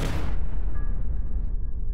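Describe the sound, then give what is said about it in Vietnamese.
A car engine sputters and stalls. A harsh, loud burst at the start fades into a dull, ragged rumble with no steady running note as the motor dies. “Mất bình tĩnh, Minh Thanh đạp mạnh chân toan tăng tốc, nhưng chỉ nghe tạch tạch mấy tiếng lớn, xe thế mà chết máy ngay tại đúng lúc này.”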